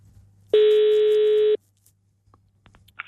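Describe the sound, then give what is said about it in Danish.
A telephone call rings on the line while someone phones about a classified advert: one steady, mid-pitched electronic ring tone lasts about a second, followed by near silence with a few faint clicks. “Men nu synes jeg ærligt talt, at det er på tide at måske bare ringe på en annonce.”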